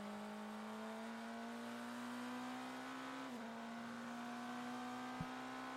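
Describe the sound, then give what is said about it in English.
An onboard BMW sports car engine drones steadily at Indianapolis as the car comes out of turn 14 onto the front straightaway and passes a couple of cars in WeatherTech Championship practice. The tone holds level with a brief dip in pitch midway, and it stays faint. “Good look at the speed differential there coming out of turn 14 onto the front straightaway. They're on board the BMW as he zipped past a couple of cars.”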